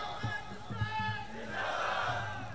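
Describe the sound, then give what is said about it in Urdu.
A crowd at a religious rally shouts a slogan in unison, a brief, loud, sustained roar of massed voices with a couple of sharper accented bursts at the start. “لگا لو آپ نے نعرہ لگانا ہے، stage والوں نے چپ رہنا ہے”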